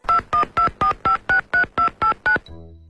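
Touch-tone dialing as a mobile phone number is keyed in to place a call: ten crisp, evenly paced beeps in a quick steady rhythm, followed by a faint low tail once the keying stops.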